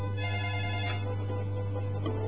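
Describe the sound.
A telephone rings for an incoming call, a steady electronic ringing tone that holds unbroken from start to end, loud and alone with no voices.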